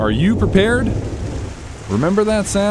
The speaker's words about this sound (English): That's the sound of your rain gutters last winter.